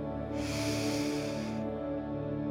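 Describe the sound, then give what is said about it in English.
A deep breath is drawn in: a soft, airy hiss swells and then fades over about a second, above a steady low hum. “Breathe in deeply and intently.”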